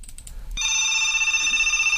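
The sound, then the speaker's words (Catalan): A telephone rings with an incoming call, a loud, steady electronic warble that starts abruptly after a brief stretch of low rumble and continues without a break to the end. “Tenim trucada, però no sentim ningú a l'altre costat.”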